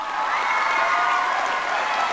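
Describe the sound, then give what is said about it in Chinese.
An audience applauds with steady, dense clapping that holds at an even level from start to finish, with no talk over it. “给他掌声给他掌声”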